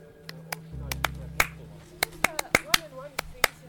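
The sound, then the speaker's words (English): Single hand claps recorded one at a time, meant to be edited together into a large applause: many separate, sharp, crisp claps with irregular gaps between them, each a short snappy crack. “das war mein Collab-Clap. Perfect. Yes, I'm making a applause in the end. So when I get the single claps, then I will edit them to a big applause.”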